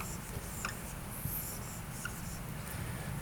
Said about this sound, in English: I'm going to write this up here.